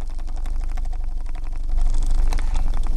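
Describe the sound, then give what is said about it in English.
Rhythmic whirring of a wooden pedal-operated spinning wheel turning a bobbin in a northern Minnesota living room, a steady mechanical hum with rapid regular ticking that grows slightly louder in the second half. “My friend sits in front of a wooden wheel on a stand, a spinning wheel, carefully operating a pedal that spins the wheel, that spins a bobbin”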